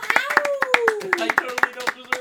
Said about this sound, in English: Let's get an audience reaction on that. Quiet little round of applause for Justin